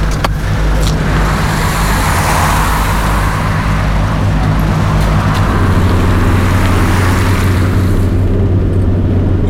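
A car engine runs steadily as a loud, continuous low drone with rumbling road noise, holding an even level throughout with no voices.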